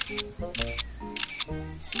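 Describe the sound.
A camera shutter fires several times in short, crisp bursts while someone takes photos of a scenic spot, set over a faint tonal background.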